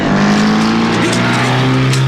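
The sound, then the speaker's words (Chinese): A car engine roars at high revs as the vehicle speeds off in a getaway chase, a loud continuous drone with a brief upward pitch shift midway, dense and unbroken throughout. “金福他们急忙开车逃走，李都督的手下就在后面紧追不舍。”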